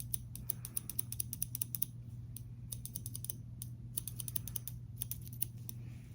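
Scissors snip through material in an ASMR mock-surgery role play with latex gloves: many crisp, sharp snips in an irregular rhythm over a steady low hum, with no talking.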